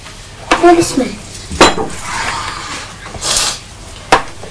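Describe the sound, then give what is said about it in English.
Ingredients, including salt and sugar, are mixed in a pot: a few sharp metallic clinks of a utensil against the pot stand out between softer scraping and swishing stirring sounds. “Well, that's it. Let's mix it up.”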